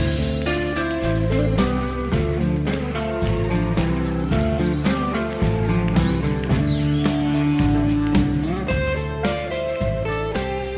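Live rock music from a 1975 concert recording: driving drums, bass and layered guitar chords on a steady beat, loud throughout, with a brief high gliding tone midway.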